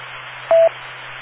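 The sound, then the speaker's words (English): A single short telephone beep, a steady mid-pitched tone lasting under a fifth of a second, stands out over constant hiss and a low hum. “Let me see if I just got the beep.”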